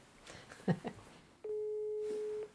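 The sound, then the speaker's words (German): A telephone ringing tone: one steady, mid-pitched tone of about a second that sounds while a call is placed, after a few brief, faint sounds. “Ich muss, glaube ich, Linard anrufen und ihn fragen. Mache ich gerade.”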